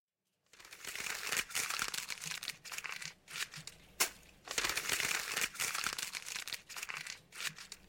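Sheets of photocopy paper are crumpled by hand, a crisp continuous crinkling and crunching in several bursts with brief pauses, moderately quiet and with no voices.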